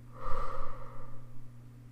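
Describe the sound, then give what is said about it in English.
A deep breath is drawn in through the nose and released through the mouth, a soft, airy rush over a low, steady hum. “Take a clean breath in through the nose and out through the mouth.”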